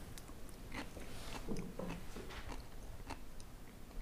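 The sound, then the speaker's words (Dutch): Soft chewing and biting as someone tastes a green, caviar-like food. Quiet, irregular crunchy clicks and squishy bites come at a low level with no talk. “het ziet eruit als uh, caviar, groene caviar. Zo, even proeven.”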